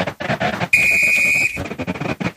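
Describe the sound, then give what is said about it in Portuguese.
Referee's whistle starting a football match between São Paulo and Cerro Porteño: one long, shrill, steady blast of just under a second, set against a busy, noisy background. “Meias brancas para a equipe do São Paulo, apita o árbitro.”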